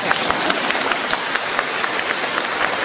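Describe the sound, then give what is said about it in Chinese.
Applause from a group of people: a dense, steady crackle of many overlapping hand claps, fairly loud and even throughout, with no voices standing out. “鼓掌。”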